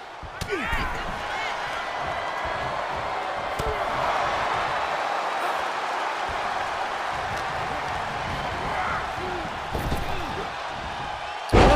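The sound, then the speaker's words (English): Heavy body-slam thuds from a WWE 2K23 wrestling video game, a few dull impacts scattered through continuous crowd roar, with a commentator talking over the action. “Power slam by Jey Uso.”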